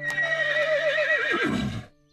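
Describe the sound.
A horse whinnies once, loud and alone: a high, wavering cry that drops sharply in pitch into a rough, breathy tail before cutting off.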